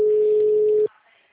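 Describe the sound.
Ringback tone of an outgoing telephone call: a single steady, mid-pitched beep holding for under a second, then cutting off abruptly to near silence.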